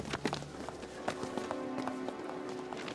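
Footsteps of someone walking in heeled shoes with no rubber on the heels, giving a quick, fairly steady series of sharp, bright clacks that ring out clearly over a low background.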